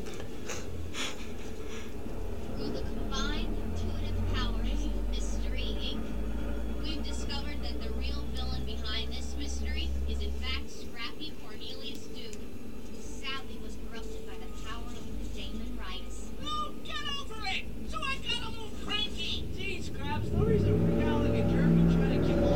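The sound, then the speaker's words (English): Low engine rumble from a Gator utility vehicle driving outside on a winter night, running steadily under continuous talking and dropping away about halfway through. “Who's out driving on their gator right now?”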